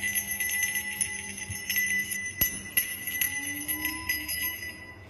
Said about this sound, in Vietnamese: Bấy giờ cái chuông đón hồn mới từ từ rung leng keng.